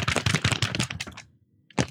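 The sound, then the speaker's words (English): Rustling and crinkling of a manila paper envelope being handled, in a few brisk bursts that stop for a short pause before one more scrape of paper. No voices. “That is the sound of a manila.”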